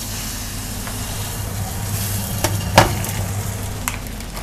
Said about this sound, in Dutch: Ik ga de zalm in de wok doen. Zonder olie.